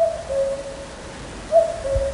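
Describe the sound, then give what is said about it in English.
Cuckoo calls as two soft, low hooting notes, each a pure steady tone, one at the start and another after a short pause. “Let's get one thing straight. Not all cuckoo birds sound like this.”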